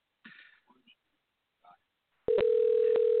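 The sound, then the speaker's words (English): A telephone dial tone, placed to call a guest back on a live radio show, starts abruptly after a click and holds at one steady pitch to the end. A few brief, quiet voice sounds come before it. “He just shot me a text that said to go ahead and call back. So let's try that again real quick.”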